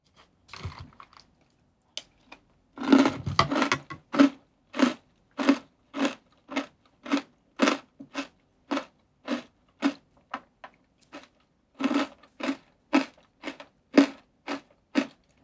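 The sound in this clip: Crunchy biting and chewing of a cocoa-flavoured snack, with many crisp crunches in a steady, even rhythm; a dense cluster of louder bites comes early, then regular, moderately loud chews follow alone.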